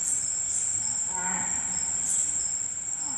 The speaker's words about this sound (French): Vous allez entendre un singe nasique,